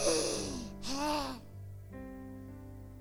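A person imitates a gasp as breath returns: a brief, faint, voiced intake of breath over a steady low hum.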